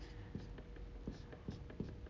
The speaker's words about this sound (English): if I write this on the board, LXX, which is the Roman numerals for 70